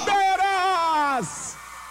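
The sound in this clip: A woman's long, high-pitched cheering shout rings out at a crowd event, holding steady before the pitch drops sharply at the end, followed by a faint hiss.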